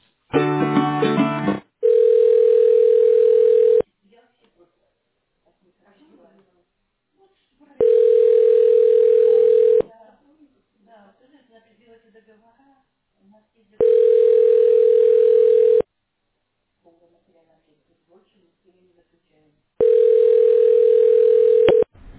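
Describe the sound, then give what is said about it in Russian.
A telephone ringing tone sounds while a call is being transferred: four long, steady beeps, each lasting about two seconds, repeat at even intervals with quiet gaps between them. “Я могу вас попробовать еще раз перевести. Если звоночек вернется, то, к сожалению, она еще занята. Давайте попробую еще раз.”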